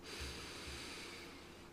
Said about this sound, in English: Once again, take a deep breath in.